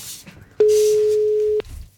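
A steady telephone call tone on a phone line for a remote piano lesson: one mid-pitched beep held for about a second, sounding alone over faint background noise.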